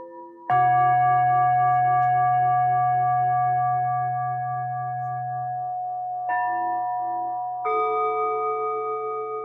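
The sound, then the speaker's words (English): Tibetan singing bowls ring with long, shimmering metallic tones. One strike sustains and fades slowly, then two more strikes follow close together late on, adding fresh layered overtones. “What you heard were Tibetan singing bowls.”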